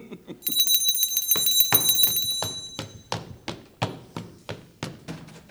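A hand bell rung to summon a minister in an emperor's palace gives a bright, high ringing that lasts about two seconds, followed by many sharp, evenly spaced taps.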